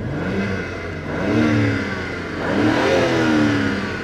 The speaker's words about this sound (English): Well, I guess in neutral now. Yeah. One final rev. Yeah, go on then.